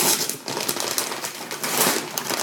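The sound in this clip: A present wrapped in Pokemon paper is unwrapped: continuous crinkly paper rustling and tearing, busy and uneven, with no voices.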